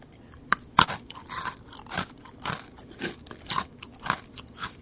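Crisp crunches from biting into thoroughly deep-fried food for eating ASMR: a string of many sharp, bright crackling bites with brief chewing in between, irregularly spaced and heard alone without talk.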